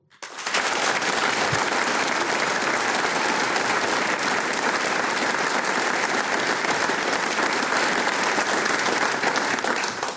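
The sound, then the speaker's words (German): Audience applause in the Arbeiterheimsaal in Vonsdorf, cheering a folk music programme premiere. The clapping starts abruptly and stays loud, dense and even for about ten seconds. “Und wie der Arbeiterheimsaal hier in Vonsdorf klingt, wenn er dieses Programm bejubelt, das klingt dann genau so.”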